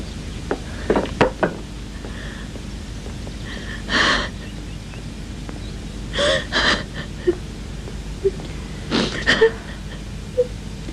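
A woman crying, with a few short gasping, shuddering sobs breaking out between long quiet stretches and some faint soft knocks.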